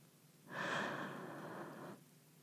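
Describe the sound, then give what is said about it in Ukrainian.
A single slow in-breath during a guided breathing exercise, faint and airy, swelling quickly and holding for about a second and a half before stopping. “Вдих.”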